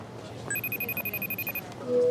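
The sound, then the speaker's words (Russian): An incoming video call ringing on a phone in a mystery quest video game: a rapid run of high electronic pulsing beeps lasting about a second, followed by a lower steady tone. “На телефоне входящий видеовызов от Дэвида.”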